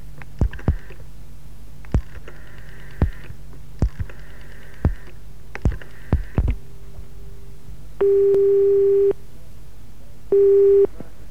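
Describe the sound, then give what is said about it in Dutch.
Telephone busy signal heard when calling a newsroom: a few sharp clicks and short tone bursts on the line, then two steady, low, droning busy tones, each held for about a second. “We hebben de hele week geprobeerd te bellen met de Vrije Keizer of de Vrije NN-redactie op de Van der Stalenstraat. En dan kregen we iedere keer weer dit te horen.”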